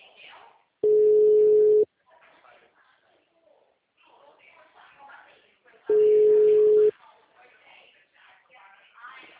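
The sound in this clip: Ringback tone of an unanswered phone call: two long, steady, mid-pitched beeps of about a second each, roughly five seconds apart, with a voice talking quietly between them.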